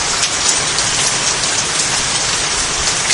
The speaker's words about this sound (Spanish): quería que ustedes escucharan la lluvia que sigue oyéndose de fondo